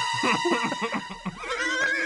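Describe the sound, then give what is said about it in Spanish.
A horse neighs in a loud, wavering whinny with quavering high pitch. The call breaks into a shriller, trembling tail near the end. “¡Me voy! ¡En mi caballo! ¡Le robo el caballo!”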